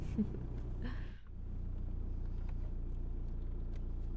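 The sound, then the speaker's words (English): Car engine rumble as the vehicle starts to drive: a low, steady drone that dips briefly early on, then continues evenly at moderate level with no voices. “Take your eyes off of me and start driving then.”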